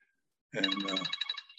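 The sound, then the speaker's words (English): A cell phone ringtone goes off in the middle of a meeting, a bright warbling electronic melody of rapid repeated tonal pulses that starts abruptly and carries on alone without talk. “to turn off your cell phone when it's ringing in the middle of the meeting”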